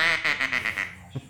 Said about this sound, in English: This is a duck call.